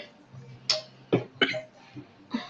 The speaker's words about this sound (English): Sorry for coughing.